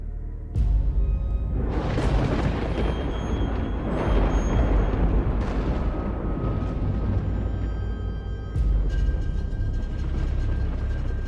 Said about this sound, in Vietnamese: Từ trên cao một tia đại lôi giáng thẳng vào nhà. Ngôi biệt thự cứ như vậy mà đùng đùng sập xuống.